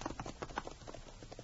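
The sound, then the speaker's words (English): Horse hooves clip-clopping along a trail as a rider heads back toward town, many quick hoofbeats in a steady, brisk rhythm. “The girl rode back to town, left her horse at the livery stable”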